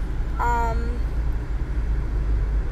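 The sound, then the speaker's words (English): Steady low road rumble inside a car while driving, a constant engine and tyre drone that stays even throughout. “I'm driving again, if you can't tell.”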